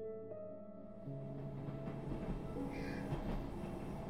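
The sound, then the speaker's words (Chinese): A train slowly pulling out gives a steady low rumble with sustained tonal hum; the rumble grows louder about a second in, then rolls on evenly without voices. “列车缓缓开出，穿进羊毛般厚厚的迷雾，”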